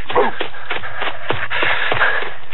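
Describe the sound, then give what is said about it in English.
Running footsteps of people sprinting the last few city blocks home: a steady run of quick, muffled scuffing steps, fairly loud and dull in tone. “Okay, about 4 more blocks and we're home. Time to sprint. Let's go”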